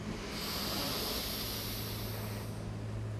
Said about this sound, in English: Inhale.